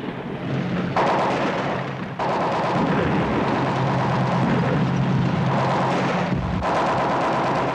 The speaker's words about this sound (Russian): В прицеле немецкий танк. Огонь! Танк подбит.